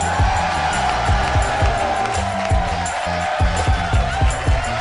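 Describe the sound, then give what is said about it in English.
Audience members in a theater applaud and cheer as a host is introduced onstage. The roar of clapping and cheering stays loud and steady, with rhythmic low thumps beating underneath throughout. “Would you please put your hands together for the mayor of Harmontown, Dan Harmon.”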